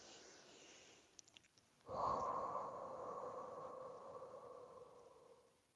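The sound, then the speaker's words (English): A person draws one long, deep breath, a soft airy rush that swells suddenly and holds steady for about three seconds before easing off, with a few faint clicks just before it and no talking. “So let me take a deep, deep breath and ask Jacob to step forward.”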